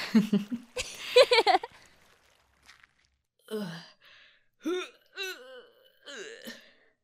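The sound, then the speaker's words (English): Groaning vocal sounds: a few short, voiced groans with bending pitch follow an earlier stretch of busier vocalizing, separated by silent gaps and fairly faint overall. “What's that I can hear? It sounds like groaning.”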